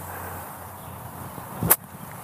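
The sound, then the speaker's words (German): A golf ball is struck with an open clubface on a full swing, a single crisp, sharp impact near the end over faint steady background noise. “kann ich ja fast sogar einen vollen Schwung machen und versuche ihn jetzt ein bisschen mit geöffnetem Schläger hoch und weich landen zu lassen”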